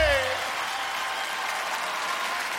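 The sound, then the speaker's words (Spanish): Audience applause at an evening Christian gathering: a steady, dense wash of clapping that holds evenly for the whole clip after a brief tonal sound at the very start. “Fuerte aplauso para Jesús en esta noche.”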